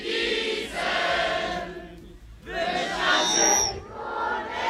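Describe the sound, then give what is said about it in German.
A massed choir of 739 singers in Obersontheim singing a chorus together: a loud, full wash of voices in two sustained stretches with a brief dip between them. “Ja, guck, so klingt das jetzt in Obersontheim. Und das ist die Musik aus der Kehle von 739 Sängerinnen und Sängern.”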